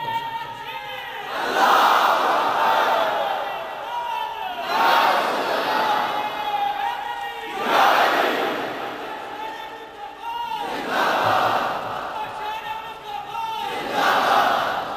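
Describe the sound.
A crowd at a religious gathering shouts a devotional slogan in unison: five loud, rhythmic chanted bursts of many voices, each rising and falling in a wave about three seconds apart.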